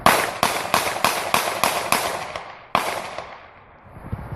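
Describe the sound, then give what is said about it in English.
Gunshots from a fatal police shooting in South Carolina: a rapid, evenly spaced volley of loud, sharp cracks, then one more after a brief pause, each trailing into a decaying rumble, with no talk. “Fifty-year-old Walter Scott was killed, was shot 8 times, shot dead by police officer Michael Slager.”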